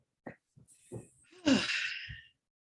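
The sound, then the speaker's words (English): A deep breath drawn in a long, airy rush lasting close to a second, preceded by a few short, faint breathy sounds. “Deep breath, long pause.”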